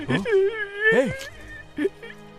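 A boy cries in high, wavering whimpers and wails, with a few broken sobbing bursts over a couple of seconds.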